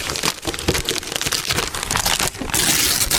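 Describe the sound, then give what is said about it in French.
Paper crinkles and tears as a wrapped gift is opened under a Christmas tree during a holiday prize game, a continuous busy rustling that grows louder and denser near the end. “Vous avez 3 paquets à votre disposition, 1, 2 ou 3. Lequel vous souhaitez déballer ce matin”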